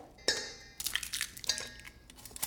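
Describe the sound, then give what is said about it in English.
An onion is sliced and an egg broken while cooking in a kitchen. A few crisp cutting and cracking clicks with faint clinks, quiet and with no voices. “A ring on a stove lights, a bottle uncorked and the wine poured. An onion is sliced and an egg broken.”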